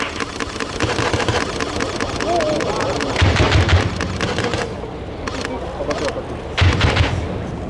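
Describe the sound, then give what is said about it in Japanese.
Several bursts of rapid, heavy thumping fire from a 40 mm automatic grenade launcher on an amphibious assault vehicle, over a steady engine drone. The bursts come in uneven clusters, with short gaps between them. “はじめに一番左の AAV が40ミリ自動的弾銃による射撃で敵を制圧します。”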